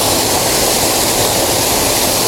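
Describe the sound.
The rushing roar of a waterfall pouring over surrounding rocks, a continuous, loud wash of noise that holds steady with no breaks and no voices.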